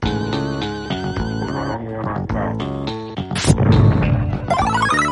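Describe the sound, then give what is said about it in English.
Zombies exploding when shot in an old zombie video game, with crunchy crashing bursts over busy, tonal game music. A few louder smashes stand out near the end. “you shoot them and they explode and their skulls bounce for a second before disappearing. It's not as gruesome as some of the other ones. It just sounds like this.”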